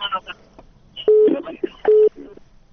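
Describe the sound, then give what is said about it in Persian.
Busy signal as a phone call to a radio call-in programme drops: two short, steady, mid-pitched tones separated by a gap, mixed with garbled phone-line sounds and brief voice fragments. “تلفن قطع شد”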